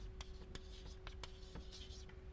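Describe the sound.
A graph is drawn by hand, heard as faint scratchy writing strokes at a few separate moments over a steady low hum.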